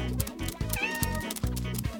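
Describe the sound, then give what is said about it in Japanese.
A cat meows in a few short calls that repeat at a steady pace, each one moderately loud and clear. “ほらほらにゃんこちゃんにゃーって にゃにゃにゃー”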